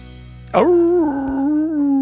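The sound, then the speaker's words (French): A single dog at a dog gathering in Le Locle gives a sharp yelp that settles into a sustained, tonal whine, loud and alone, holding a fairly steady pitch to the end. “On est au Locle. Oui, avec tout plein de maîtres bien heureux, avec des chiens plus beaux les uns que les autres.”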